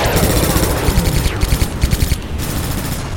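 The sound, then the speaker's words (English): Point-defense batteries fire microkinetic projectiles at incoming torpedoes in a sci-fi space battle, a loud, dense stream of rapid gunfire with many quick, evenly spaced shots rattling throughout over a continuous roar. “Multiple point defense batteries came to life, filling the space around her with microkinetic projectiles that easily shredded the incoming Ryle torpedoes.”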